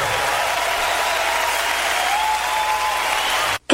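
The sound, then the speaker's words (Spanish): Audience applause, dense and steady at a loud, even level for over three seconds before cutting off abruptly near the end. “Levante ese aplauso fuerte.”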